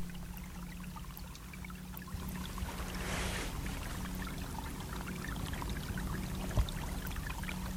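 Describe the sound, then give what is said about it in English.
A bubbling brook in wild Greenland gives a faint, continuous rushing babble of water that stays steady and even throughout. “So that's the sound of a bubbling brook on Greenland.”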